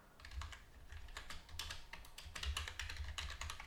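Fingers type on a computer keyboard, producing quiet, rapid, irregular clicks and taps in uneven bursts over a faint low hum.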